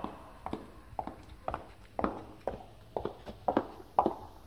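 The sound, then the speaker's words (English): Someone walks in hard clogs, producing soft, hollow knocks at an even walking pace that repeat many times. The steps are faint and heard alone. “What kind of shoes are those? Are those are hard clogs? Those are clogs. So you're clogging your way back to me”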